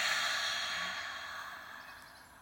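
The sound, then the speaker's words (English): A deep breath is released in a long, airy, sigh-like exhale during a guided meditation, faint and fading gradually over about two and a half seconds, alone without talk. “So let's take a deep breath in and release.”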